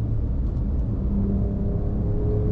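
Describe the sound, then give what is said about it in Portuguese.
Deep engine roar from a pickup truck with a straight exhaust and no muffler, accelerator floored, a loud, steady, dense low rumble with no break throughout. “É um escape direto nessa picape. Realmente, quando você pisa fundo no acelerador, é uma experiência sonora impressionante.”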